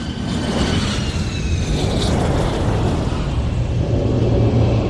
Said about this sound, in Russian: Самолет приземляется.